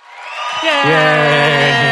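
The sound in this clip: A crowd cheering sound effect, like a live sitcom audience, swells up over the first half second and then holds as loud, sustained whooping and cheering voices.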